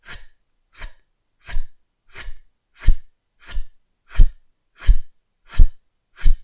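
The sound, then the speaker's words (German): Ten rhythmic 'ft' exhalations from a breathing exercise: short, sharp, breathy puffs at an even pace, each separated by silence, growing slightly stronger and fuller as the sequence goes on. “Bei jedem Ft-Laut zieht sich die Bauchdecke ein klein bisschen nach innen und kommt locker wieder raus. Beobachte nur deinen Bauch, du musst da nichts speziell machen. Atme weiter mit dem Ft.”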